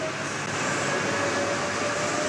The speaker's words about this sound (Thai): ถ้างั้นด้านบนของแผ่นไม้ก็คือรถไฟใต้ดินสาย1ที่กำลังวิ่ง